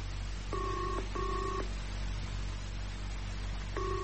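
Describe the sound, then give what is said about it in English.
A telephone ringing tone sounds for an incoming call: two-tone ring bursts, two close together, then a pause, then a third starting near the end, all over a steady background hiss. “There's a call coming through now, sir.”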